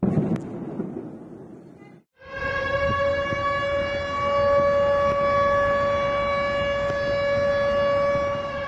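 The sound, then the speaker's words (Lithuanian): Air raid sirens wail over the city of Belgorod, Russia, a steady, loud, held tone that sets in after about two seconds of low rumble and sustains without a break to the end. “Belgorode kaukia sirenos”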